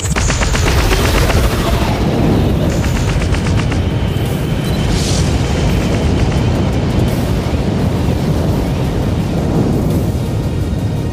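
Spaceship weapons fire in a dense, rapid barrage mixed with booming explosions, loud and continuous from start to end with no talk.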